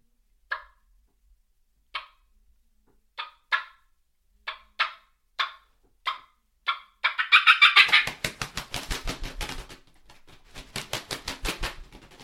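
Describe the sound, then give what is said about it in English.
Turkey call clucks followed by wing flapping, imitating two turkeys flying down: a series of sharp, evenly spaced clucks, then a long, rapid, loud flutter with one brief break. “so I replicated two turkeys flying down right there”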